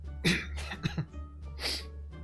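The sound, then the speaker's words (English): Man clearing his throat while stifling a laugh: a few short, rough, breathy bursts, with two quick ones near the middle and a final longer rasp. “clears his throat trying to stifle a laugh.”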